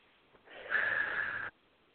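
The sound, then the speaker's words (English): A deep breath on cue in a guided exercise, drawn in through the nose and let out through the mouth, heard as one steady, breathy rush lasting about a second, with no talk. “a big breath in through your nose and out through your mouth.”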